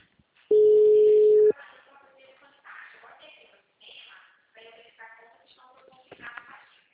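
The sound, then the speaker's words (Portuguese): A single steady telephone tone, heard on a call that has just dropped, sounds as one flat, mid-pitched beep lasting about a second. A voice then speaks. “eu tava em ligação com o senhor, mas a ligação lá acabou caindo.”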